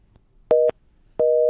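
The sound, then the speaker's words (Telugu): A telephone busy tone after a call disconnects: two loud, steady, mid-pitched tone pulses. A short one comes first, then after a pause a longer one runs to the end. “Okay, call disconnect అయింది.”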